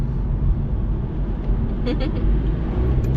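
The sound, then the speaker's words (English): A car drives through a roundabout, giving a steady, loud low engine drone and road rumble that holds evenly for a few seconds with no break. “At the roundabout, driving. Go straight on, then turn left.”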